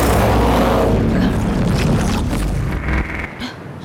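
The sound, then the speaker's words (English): A hypersonic sonic blast weapon firing, heard as a loud broad roaring burst that starts at full strength and gradually thins out and fades over a few seconds. “But a hypersonic blast ought to shake it loose!”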